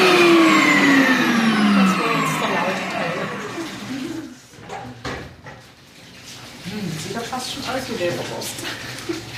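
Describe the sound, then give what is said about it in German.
An electric meat grinder in a cold store, used for making liver sausage, is switched off and its motor whine falls steadily in pitch, followed by scattered clattering and handling noises. “Die schaltet gerade den Fleischwolf aus.”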